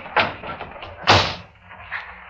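A door as people go out through it: two dull thumps about a second apart, the second louder, with soft rustling movement between them.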